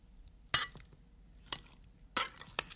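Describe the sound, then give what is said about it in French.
Utensils clink against a bowl as potato salad is mixed with chopped parsley, a few sharp separate clinks with quiet gaps between them and no voices. “Et pareil pour le persil. Et on va mélanger le tout.”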